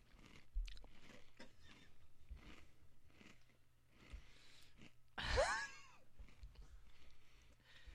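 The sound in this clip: Crunchy chewing of chocolate Toast Crunch cereal eaten dry, without milk: many fairly faint, rhythmic crunches follow one another, with one louder burst partway through.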